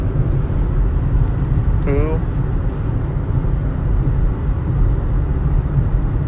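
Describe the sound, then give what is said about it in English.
A car driving on the road, a steady low engine and road rumble that holds loud throughout, with a brief voice in the middle. “Sorry, I was reading something while I'm driving.”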